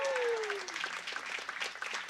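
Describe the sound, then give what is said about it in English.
An audience applauds at a live jazz concert, with steady, dense clapping throughout and a sustained tone gliding downward during the first moments. “How about a round of applause for Bill Stewart”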